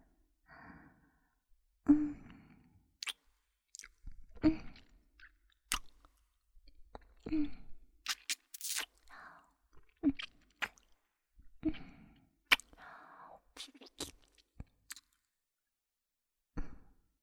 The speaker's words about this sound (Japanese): 左の耳たぶも甘噛みして、チュパスイいたしますわ。